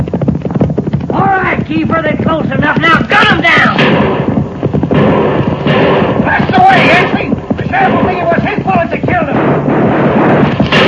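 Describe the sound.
Gunfire from a radio drama western ambush at a mountain pass: dense, loud bursts of shots and blasts that continue without a break, mixed with voices throughout.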